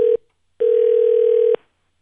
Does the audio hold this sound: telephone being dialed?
yes

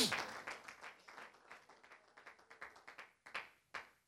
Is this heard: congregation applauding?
yes

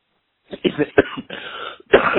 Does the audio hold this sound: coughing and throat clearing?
yes

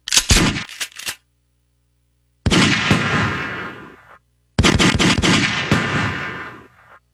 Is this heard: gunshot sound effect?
yes

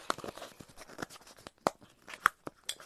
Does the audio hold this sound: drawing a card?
yes

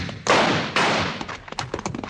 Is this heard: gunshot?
yes

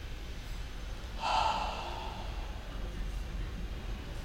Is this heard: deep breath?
yes

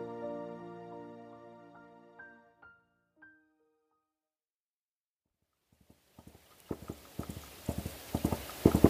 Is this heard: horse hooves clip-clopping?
yes

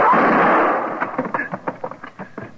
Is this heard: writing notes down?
no

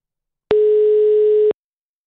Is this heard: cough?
no

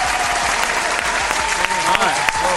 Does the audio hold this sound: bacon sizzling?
no

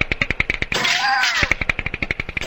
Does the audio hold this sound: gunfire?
yes

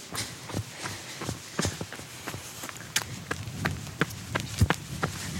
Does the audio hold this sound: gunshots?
no

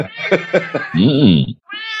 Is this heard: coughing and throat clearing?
no

